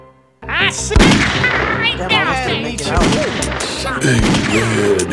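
Gunshots in the Western video game Grizzly Gulch, a few sharp, loud bangs spread through a busy, dense mix of game sounds.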